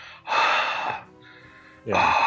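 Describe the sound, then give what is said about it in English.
Heavy breathing by a female voice, recorded as part of a film's musical score: two loud, breathy bursts with a softer, quieter breath between them. “that's not me. They actually paid some chick to go into a recording studio and breathe heavy on tune to freaking like fill out the score.”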